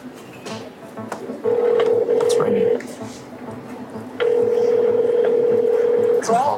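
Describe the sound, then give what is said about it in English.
A phone call is placed: a steady ringback tone sounds in two long bursts of about a second and a half each, separated by a gap, over a low background hum, followed by a short rising electronic blip at the end. “I think we should just call her and see what happens. All right, here goes nothing.”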